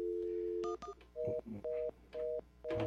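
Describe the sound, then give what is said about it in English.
A telephone number is keyed in on a touch-tone phone: a few clear, steady dialing beeps of roughly equal length, separated by short gaps, with a brief higher double chirp near the start. “And I was dialing this number, and it kept coming up with somebody else's.”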